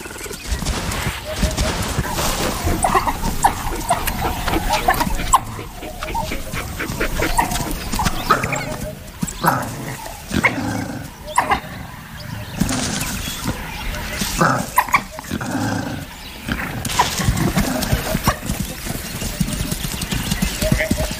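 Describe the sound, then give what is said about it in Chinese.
An African wild dog calls out to summon the rest of its pack after finding a leopard with fresh prey in the bush. Repeated yelping and whining calls sound over a busy, noisy outdoor background. “一只非洲野犬在巡逻途中发现了一只刚刚捕获猎物的花豹， 他正在召唤其他非洲野犬来帮忙。”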